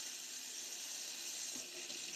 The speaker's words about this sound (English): I gotta wash my cutting boards.